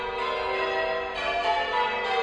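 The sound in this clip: Church bells ring a peal from a six-bell war memorial tower in Bundaberg. Bright metallic tones overlap in a dense, sustained ring, renewed by fresh strikes.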